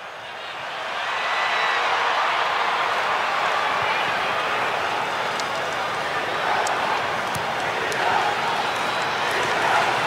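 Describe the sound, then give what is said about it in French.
A football crowd roars in support of Iran at a stadium in Los Angeles. The wash of massed voices swells early, then stays steady and dense, with a few sharp claps cutting through. “Et le soutien du public pour l'Iran. On l'entend, il y a une diaspora imposante du côté de Los Angeles”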